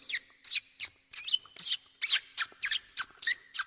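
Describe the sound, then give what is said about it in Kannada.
Parrots chirping in a quick, steady series of many short, bright, high calls with brief gaps between them, with no voices. “ಬಾಕಿಲಲ್ಲಿ ನಿಂತಿರುವಾಗ ಗಿಳಿಗಳ ಶಬ್ದ ಹಿಂಗೆ ಕೇಳುತ್ತಿತ್ತು.”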